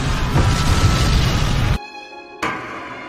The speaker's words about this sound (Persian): دشمن از مواد منفجره استفاده میکنه.